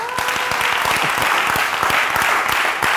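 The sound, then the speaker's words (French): A church audience clapping to acclaim the Lord, loud and dense, with many crisp individual claps standing out over a continuous wash of applause for three seconds. “Alléluia, acclamons le Seigneur.”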